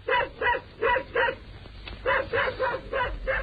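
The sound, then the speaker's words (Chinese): A dog barks in two quick bursts of sharp, loud barks with a brief pause between them, and no voices are heard. “这只讨厌的狗来的真不是时候。”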